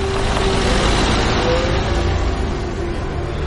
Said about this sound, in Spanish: Gabriela conduce a la calle Mayaloe.